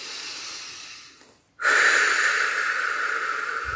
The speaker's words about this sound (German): Und noch einmal tief ein- und ausatmen.